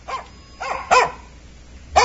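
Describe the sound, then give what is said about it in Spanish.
Dogs barking at people passing by on their way to the fields. Four sharp barks come at uneven intervals, loud and alone with no talk. “Claro que sí, los guardianes ahí están, ahí ladrando que está pasando gente.”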